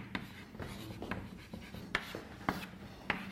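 A pen scratches softly as someone writes out a definition by hand, with a run of short strokes and a few sharper taps.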